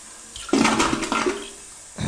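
Toilet flushing: a sudden rush of water swells into a loud gurgling roar, fades, and then a second surge of water rises at the very end.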